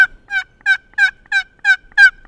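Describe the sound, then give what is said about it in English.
A wooden box turkey call, shaped like a small cigar box and worked for turkey hunting in Lincoln County woods, imitates a gobbler with a regular series of loud, raspy, high yelps, evenly spaced and heard alone. “meant to attract a big gobbler in the woods of Lincoln County. One is a wooden paddle and what looks like a mini cigar box.”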